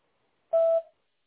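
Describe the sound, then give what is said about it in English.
An answering machine's beep signalling the start of message recording: one short, steady, mid-pitched electronic tone, clear and alone against silence, ending with a brief tail. “please leave a detailed message at the tone, and we'll be sure to get back to you as soon as possible”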